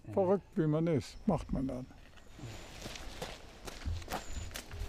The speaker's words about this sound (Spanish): Sube los escalones de 2 en 2, usando también sus brazos.